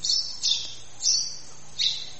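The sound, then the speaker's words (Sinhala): A house sparrow gives four short, bright, high chirps, spaced unevenly against a quiet background. “මේ මොකද ගේ කුරුල්ලේ? ගේ කුරුල්ලෝ නේ.”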